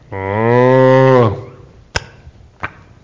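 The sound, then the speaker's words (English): A cow gives one long, deep, steady moo lasting about a second, then two short, sharp clicks follow after a pause, with no voices. “They moo and they chew. That's about all they do.”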